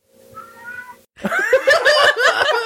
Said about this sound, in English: That is the cat.